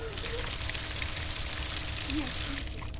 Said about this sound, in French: C'était le bruit de l'eau qui coule d'un robinet.